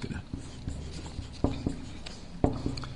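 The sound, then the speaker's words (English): Writing on a board during a lecture: soft scratchy strokes continue throughout, punctuated by a few sharp, brighter taps as the writer marks the surface. “I'm being brief and writing small because there's a lot to put on the board this morning.”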